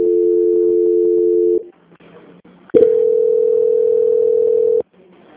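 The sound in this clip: A telephone line plays loud, steady electronic tones while a call is being transferred. One sustained hum is followed by a brief gap with faint clicks, then a second long steady tone that cuts off abruptly.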